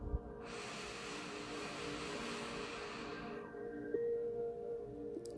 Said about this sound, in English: So we'll start with the first one. Deep breath in.